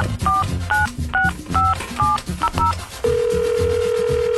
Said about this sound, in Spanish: A ver, vamos a marcarle que contesten, oye.